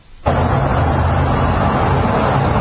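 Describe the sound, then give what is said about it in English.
Secret Service Chevrolet Tahoe SUVs driving back and forth give a heavy, steady rumble of engine and road noise that kicks in abruptly and holds loud and even to the end. “these are the Tahoes that are driving, Secret Service that are driving back and forth with the two supporters welcoming Kamala Harris back home into California”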